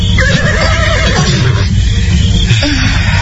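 A horse neighs in a loud, drawn-out whinny with a wavering, shaking pitch that lasts nearly the whole clip, over a steady low rumble.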